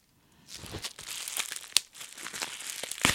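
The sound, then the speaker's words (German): A package wrapped in plastic bubble wrap is unwrapped with crisp crinkling and rustling. The sound rises from near silence, with one sharp crackle in the middle and more crackles near the end. “So, ich werde mir das jetzt nochmal genauer angucken, weil das ist ja das, was ich anfangs gesagt hatte, was in Luftpolsterfolie eingepackt ist.”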